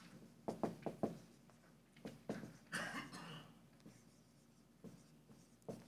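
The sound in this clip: Handwriting during a lecture: a run of short, scratchy strokes and light taps in uneven bursts, fairly faint, with no one talking.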